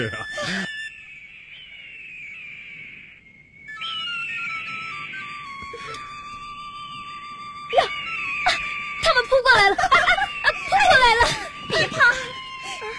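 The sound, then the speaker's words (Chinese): Shrill, wailing cries of mountain eagles arriving: a sustained whistling tone gives way to a burst of sharp, overlapping screeches in the second half. “瞧，山鹰来了、 哎、真的、哎啊、飞来了一只、啊、两只、啊、这么多的山鹰啊。”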